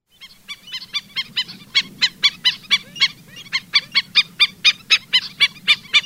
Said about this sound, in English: the black-necked stilt might sound like an obscure kind of tool maybe for doing yard work. It's actually the name of a bird found typically in Gulf states that's been known to visit us here in Wisconsin. It sounds like this.